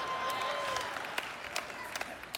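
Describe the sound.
Faint clapping from a church audience: a soft, dense patter that thins out into a few scattered individual claps toward the end, with a voice briefly heard near the start.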